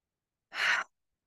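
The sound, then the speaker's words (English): A single deep breath, taken as a calming reset for an irritated or distraught person, comes as one short, breathy rush of air lasting well under half a second, fairly loud and alone without any talking. “So these deep breaths you're going to take,”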